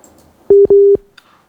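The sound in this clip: Telephone line tone after a call drops: two steady, mid-pitched electronic beeps, a short one then a longer one, separated by a brief gap. Faint hiss follows.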